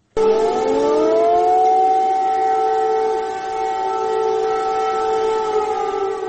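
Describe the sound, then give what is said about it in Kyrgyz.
Air raid sirens in Kyiv warn of a missile threat with a loud, sustained wail. It rises quickly in pitch at the start, then holds a steady tone, easing slightly in loudness midway. “Биринчи декабрдын таңында баш кала Киевте ракеталык коркунуч тууралуу эскерткен сиреналар кайрадан жаңырды.”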